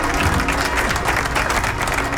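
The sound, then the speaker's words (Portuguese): Applause from an audience during a live donation segment: a dense, steady clatter of many hands clapping, loud and even for the whole two seconds with no break and no voices over it. “Os aplausos também.”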